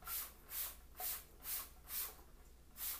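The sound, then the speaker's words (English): A spray bottle spritzes onto water standing on a floor, a faint series of soft, hissy bursts repeating in an even rhythm. “So I'm gonna spray.”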